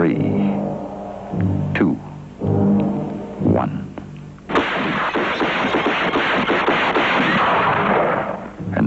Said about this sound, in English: Nine shots through a window, Martin Muggsy Heidel paid his debt to the underworld.